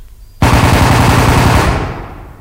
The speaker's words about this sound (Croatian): E, sad bi ovdje bilo lijepo da se čuju neki ratni ovako efekti pucnjava i tako.